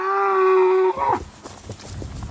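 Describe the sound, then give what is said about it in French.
A loud, steady moo from a cow in a herd of crossbred cows, a cross of three breeds, in a field. It lasts nearly a second and breaks off abruptly, followed by quieter rustling noise. “C'est un troupeau unique dans les champs du Poitou.”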